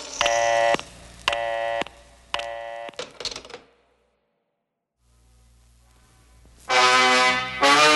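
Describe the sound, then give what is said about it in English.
Telephone dialing tones in a 1967 car dealer commercial: three loud, buzzy harmonic bursts, then a few shorter rapid beeps. Near-silence with a low hum follows before a long, loud buzzing tone at the end. “I'm dialing Henry.”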